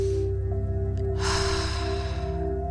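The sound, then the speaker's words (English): A single deep inhale taken during a spoken affirmation, a breathy rush of air over a steady, droning musical backdrop. “Take a deep breath in.”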